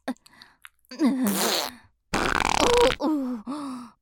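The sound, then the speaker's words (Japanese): A fart erupts as a rough, pitched, flapping burst lasting about a second. Strained vocal grunts and groans with wavering pitch come before and after it. “勢い余っておならが出てしまいました”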